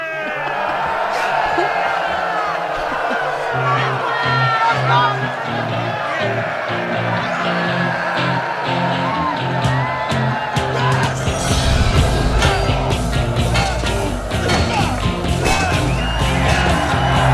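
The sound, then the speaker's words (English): A swordplay sound effect of knights fighting, with yells, whoops and crowd-like shouting throughout. Sharp clashing hits pile up in the second half, and the whole scene stays loud and busy. “A little bit of sword play there, swashbuckling and knights and, yeah, all that good stuff.”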